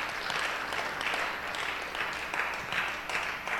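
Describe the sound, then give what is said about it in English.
Audience applause welcoming a group of young men as they come up to sing: dense, steady clapping that continues as an even patter throughout, with no voices over it. “Let's put our hands together and welcome them.”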